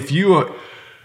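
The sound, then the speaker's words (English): A man fakes a sneeze with a single short voiced 'ah' that rises in pitch and then cuts off abruptly, leaving a faint fading tail. “Give me an example. You want me to fake sneeze?”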